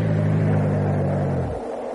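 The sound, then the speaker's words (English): A car engine runs with a steady, loud low hum, then cuts out after about one and a half seconds, leaving a quieter, dull rumble. “Well, the engine stopped. Why has it stopped? I don't know why it stopped.”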